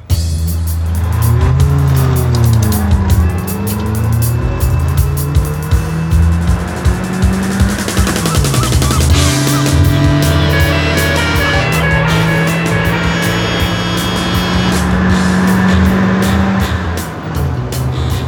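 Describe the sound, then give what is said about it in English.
A car accelerates away hard, its engine revving loud and continuous for the whole stretch, climbing and dropping in pitch several times. “Just keep driving. Will you do that? Hop in. Thank you. And put your foot down. Hold tight!”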